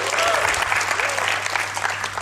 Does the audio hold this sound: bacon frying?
no